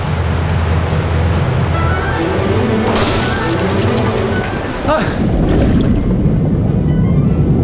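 Rough sea waves surging around a boat near the coast: a continuous loud roar of churning water, with a heavier crashing swell midway and a brief dip before the roar resumes.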